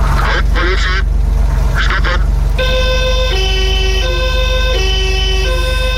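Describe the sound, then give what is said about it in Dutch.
Siren of an old 1979 Porsche 911 police car: after a couple of short honking bursts, a loud two-tone wail switches repeatedly between a high and a low pitch over a constant low hum. “Dat is het geluid van de oude politie Porsche 911.”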